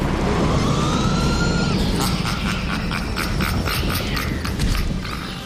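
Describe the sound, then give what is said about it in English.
A creepy laugh from a sideshow alley ride at a fair comes as a rhythmic run of many harsh cackling bursts over constant background noise, fading slightly at the end. “Very creepy. Something that happens in Sideshow Alley. From the rides, presumably, of course. When you hear that, the creepy laugh”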